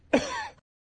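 A single brief throat clearing, one short rough rasp that rises sharply and cuts off within half a second, followed by silence.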